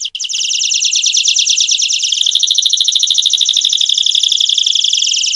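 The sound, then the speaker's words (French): Canary singing: a loud, continuous high-pitched trill of rapid, even warbling notes that runs without a break, heard alone. “Ce que vous entendez à présent, c'est un canari.”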